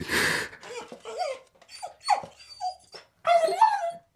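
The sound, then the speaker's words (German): An old, dying dog whimpering: a string of short, high, whiny cries and breathy yips separated by brief pauses, ending in a louder, longer whine. “Er legt sich zu meinen Füßen nieder, wie zum Schlafen, winselt und ist tot.”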